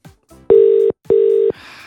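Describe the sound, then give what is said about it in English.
Outgoing telephone call ringing unanswered: two steady, mid-pitched ringback tones, each just under half a second, separated by a short gap, followed by a faint hiss. “But we'll give her a ring anyway.”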